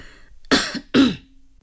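A person coughs twice, two short, throaty bursts about half a second apart, alone against a quiet background.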